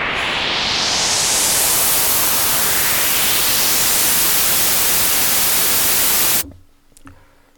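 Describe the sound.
Synthesizer patch imitating blizzard wind: a loud, steady rush of filtered noise with faint slow sweeps running through it. It cuts off abruptly near the end, leaving only faint residue.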